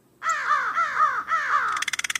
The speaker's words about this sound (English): You need look no further than the nearest flock of crows.